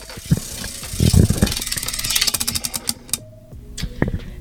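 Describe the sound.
A prize wheel spinning, a rapid run of rattling clicks that gradually space out and slow, ending in a few last separate ticks.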